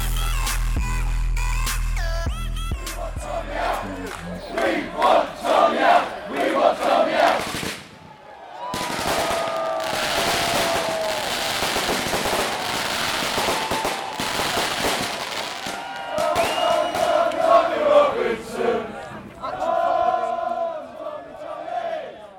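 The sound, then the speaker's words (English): Crowd noise at a Free Tommy demonstration outside Belmarsh Prison: loud shouting and chanting with sharp firecracker-like bangs, a brief lull near the middle, then the crowd swells again and carries on to the end. “What you just heard there were sounds recorded at Belmarsh Prison, where the first of many, well, at least a few, Free Tommy demonstrations took place.”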